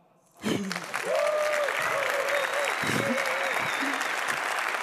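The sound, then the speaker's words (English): Audience applause breaks out after a brief quiet start, a dense sustained clatter of many hands clapping at steady loudness, with a few voices calling out over it. “Come on, you can do another”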